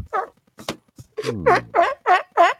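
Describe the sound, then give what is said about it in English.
Sea lion calling in a loud series of harsh, honking barks, each burst short and rough-edged, with one longer drawn-out call partway through, alone with no talk. “It was a sea lion. Oh, it's a sea lion.”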